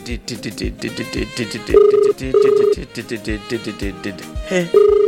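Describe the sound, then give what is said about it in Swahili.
Telephone ringback tone heard after dialling a prize winner's number. Three steady, sustained tones sound amid busy, rhythmic background sound. “Wacha tena tupige nambari nyingine tufahamu kwamba unapatikana wapi.”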